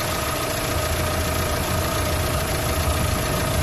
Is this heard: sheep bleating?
no